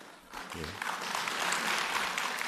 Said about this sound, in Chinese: 你看，大伙还真鼓掌，真捧场。